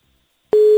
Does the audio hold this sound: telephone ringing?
yes